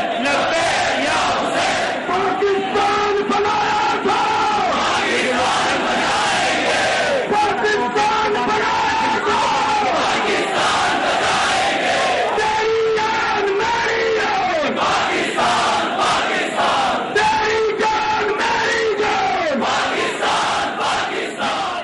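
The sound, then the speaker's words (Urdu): A large crowd in Pakistan chanting patriotic and religious slogans in unison, loud rhythmic phrases repeated over and over without letup. “وطن دوستی اور دینی جذبوں سے بھرپور یہ نعرے بتا رہے تھے کہ پوری قوم آج اپنی سرزمین کے دفاع، دین کی حفاظت اور الہی اقدار کو دوبارہ زندہ کرنے کے لیے عزم مصمم لے کر میدان عمل”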